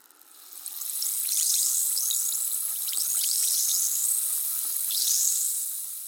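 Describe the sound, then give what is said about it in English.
Baking soda fizzing in a chemical reaction: a bright, crackling hiss of countless tiny popping bubbles swells over the first second, holds steady with quick chirping pops, then eases slightly at the end. “That was the sound of baking soda in a chemical reaction.”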